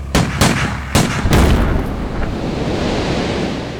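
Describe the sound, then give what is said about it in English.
A few sharp rifle cracks fired at a floating sea mine trailing behind a barge, followed by a loud, sustained noisy rush that slowly settles. “We let the mine get 100 yards astern of the last barge, and the men blow it up with rifle fire.”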